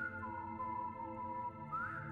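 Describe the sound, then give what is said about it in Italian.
Someone whistles a melody in a hospital ward, a soft, sustained tone that wavers and glides between notes and rises toward the end, with no talk. “E comincio a fischiettare, come se fossi posseduto.”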